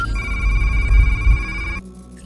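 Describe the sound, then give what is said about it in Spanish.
A telephone rings for an incoming call on a secure line, one continuous bright electronic ring that sounds loudly for under two seconds and then cuts off abruptly. “Agente, tiene llamada por la línea segura. Conectando.”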